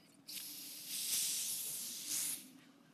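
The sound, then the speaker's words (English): A fizzing hiss comes from a container as its lid is opened. The bright, airy hiss starts abruptly, swells, surges again briefly, then cuts off after about two seconds. “just going to open it. Can you just tell the people whether or not you hear fizz here? Okay. You heard it?”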